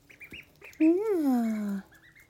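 Ducks quacking while being fed mashed-up food: one long, loud nasal call that rises and then slides down, with fainter short quacks before and after it.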